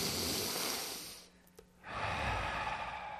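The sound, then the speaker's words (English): A slow, deep breath taken during a church gathering: a long, airy inhale, a short quiet pause, then an equally long, soft exhale. “Follow me, take a deep breath.”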